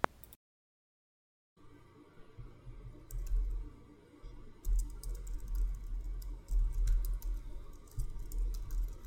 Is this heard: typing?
yes